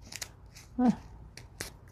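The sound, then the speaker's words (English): Scissors cut paper while making a small book: a single faint snip stands out against quiet rustling. “You could also use scissors here. It's not that thick.”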